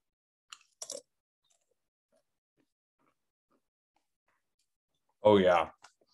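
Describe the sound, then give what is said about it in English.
Biting into a spicy mango flavored chip gives a few short, sharp crisp crunches early on, then near silence, then a brief voiced hum of approval. “Open up the bag. Give a smell test. Ooh, I can smell the sweetness, the spiciness. Okay, here we go. First chip.”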